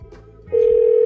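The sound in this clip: A telephone rings on an outgoing call to a cell phone: a quiet, murmuring lead-in gives way midway to a loud, steady ringback tone that holds unbroken to the end.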